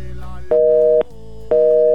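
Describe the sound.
Telephone busy tone after a call is hung up: two steady, even tone bursts of about half a second each, separated by equal gaps, over a continuous low background.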